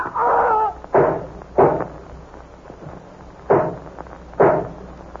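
Gunshots from two guns ring out as five sharp, loud bangs. A longer first blast is followed by two quick reports, a short lull, then two more evenly spaced shots, each cracking and fading fast.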